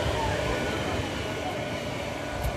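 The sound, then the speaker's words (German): A huge cargo crane at a shipyard rolls past, making a steady, low mechanical rumble that holds at an even level from start to finish. “Oh ja, einer von den ganz großen Lastkränen bewegt sich hier.”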